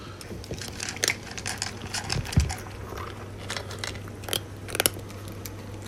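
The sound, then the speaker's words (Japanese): A cat crunches dry kibble: faint, irregular crisp bites and crunches over a low steady hum. “最後はカリカリを食べる音が少し聞こえたと思いますけど”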